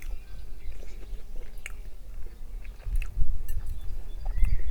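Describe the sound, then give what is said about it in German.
Biting into and chewing a hamburger topped with bolognese sauce, with soft, wet crunching and mouth noises that turn louder in a few bursts toward the end. No one speaks. “Einfach mal hinten ein bisschen zusammendrücken und dann beherzt reinbeißen.”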